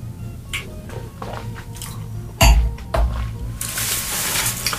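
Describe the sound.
Wine being sipped and tasted, heard as soft wet slurping and squishy mouth sounds, with a couple of louder bursts midway and a hissing airy draw toward the end.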